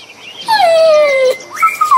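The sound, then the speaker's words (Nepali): Small, hungry puppies whimper beside their thin mother dog. Two loud, high whines sound alone: a long one sliding steadily downward in pitch, then a shorter one that rises and falls. “यहाँ त सानो सानो कति राम्रो कुकुर रहेछ। तर हेर त बाबु, उनीहरूलाई कस्तो गाह्रो भइरहेछ।”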